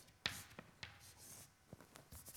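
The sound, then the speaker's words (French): Writing on a board during a physics lecture: faint scratchy strokes and light taps come in short, irregular bursts, each a quick scrape against the surface, with no talk. “je vais les écrire ici”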